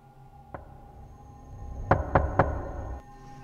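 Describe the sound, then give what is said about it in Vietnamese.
Knocking on the door of a house: a single faint rap, then after a pause three quick, firm knocks in a steady row, with no voices. “Cô ta lại nín thở, tiếp tục gõ cửa.”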